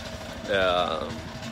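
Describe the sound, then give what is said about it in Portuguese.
A passing vehicle's engine accelerates: a short surge of whining harmonics over a steady low rumble, lasting about half a second before settling back. “Tem um cara vindo aí fazendo barulho. Vamos rápido aqui, ó. Vamos rápido. Será que a gente consegue competir com ele, cara? Ele acelerou agora.”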